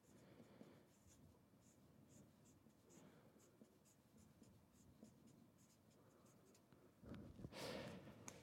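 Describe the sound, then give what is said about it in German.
A word is written by hand, the pen making soft, scratchy strokes in quick succession, faint and continuous, with a slightly louder flurry of strokes near the end. “Ich schreibe mal geschaffen hin.”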